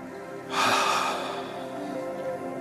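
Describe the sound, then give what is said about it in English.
A single deep breath, a short airy rush of air lasting about half a second, rising quickly and fading into a steady low hum. “So I invite you to take a deep breath.”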